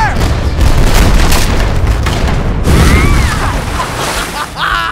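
Pirate ship cannons fire in a loud, continuous booming roar that fills the whole stretch, dense rumbling blasts with no pause between them.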